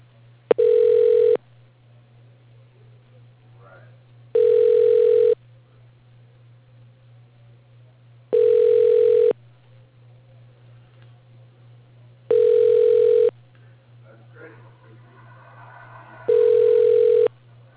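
Ringback tone from an automated phone system trying an extension: five even, buzzy rings at a steady interval of about four seconds, each lasting roughly a second, over a faint constant low hum.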